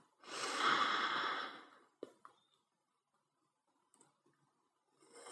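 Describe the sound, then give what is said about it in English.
A deep, slow breath in during a relaxation meditation, airy and fairly loud for over a second, followed by a couple of faint clicks, near silence, then the start of another soft breath. “Taking another deep breath in.”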